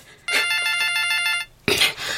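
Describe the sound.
A telephone bell rings in two long, bright, trilling bursts separated by a brief pause. The second burst begins loudly and continues to the end.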